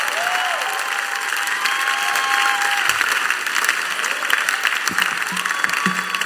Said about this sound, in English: And if you're excited, put your hands together as we welcome Bishop Dykewood Mills.